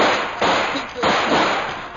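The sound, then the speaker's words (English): Rifle shots ring out in a radio-drama battle scene: two sharp, loud cracks, each trailing into a sustained noisy wash. “I can hold them off for a minute with a rifle.”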